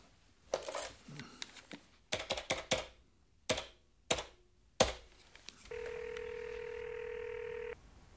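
A telephone call is dialed: several bursts of sharp clicks come in quick clusters with pauses, then a steady, even tone holds for about two seconds before cutting off.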